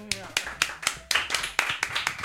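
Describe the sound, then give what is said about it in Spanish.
Sparse clapping from a small quiz show audience, a steady run of separate, distinct claps at an even pace, with a voice heard briefly at the start. “Un poquito más de aplauso, que aquí nunca acierta nadie.”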